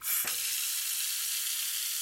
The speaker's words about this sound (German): lässt Wasser in die Badewanne ein